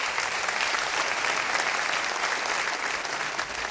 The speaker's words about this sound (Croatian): Aplauza umjetnicima nikad nije na odmet, ali čuvajte dlanove, bit će još puno prilika